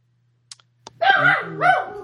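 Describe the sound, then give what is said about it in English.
A dog barks twice in loud, drawn-out, tonal barks, the first longer than the second, after a couple of faint clicks. “What the hell's that dog barking at?”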